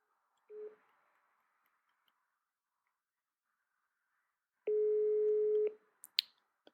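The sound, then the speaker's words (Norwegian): A telephone ringback tone from an outgoing call: a brief blip, then one steady, mid-pitched beep about a second long, followed by a couple of sharp clicks as the line connects. “vi prøver å ringe henne nå”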